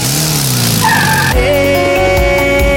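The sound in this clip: A car accelerates hard and skids. A rising engine whine gives way to a loud, sustained tire squeal made of dense, high-pitched tones.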